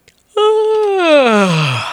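One long human yawn, loud and alone: a voiced sound that holds at a mid pitch, then slides steadily downward into a low, breathy finish.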